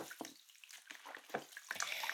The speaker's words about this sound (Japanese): まずは、持ってきた洗面器に、タオルを浸して、